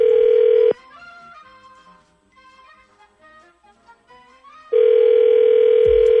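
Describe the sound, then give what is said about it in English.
A telephone dial tone as a call is placed: a loud, steady, mid-pitched hum that cuts off after under a second, gives way to a quiet run of melodic tones, then returns loud and unbroken at the end. “We need to get her number from you, and then we'll call Sarah when we come back next.”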